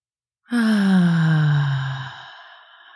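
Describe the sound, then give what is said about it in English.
A deep breath exhaled through the mouth during a guided forgiveness meditation, heard as one long voiced sigh that starts abruptly, drifts gently lower in tone and fades out over about two and a half seconds. “Now take a deep breath. Inhale through your nose and exhale through your mouth.”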